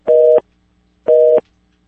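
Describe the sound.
A telephone busy signal sounds after a call is cut off: two identical steady beeps about a second apart, loud and alone, with silence between them.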